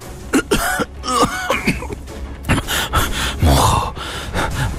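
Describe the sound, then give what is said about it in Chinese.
An emperor in a historical drama is seized by a violent coughing fit: many loud, harsh coughs and throat-clearing bursts come in rapid irregular succession, broken by sharp gasping breaths. “这景帝狂咳嗽了一阵”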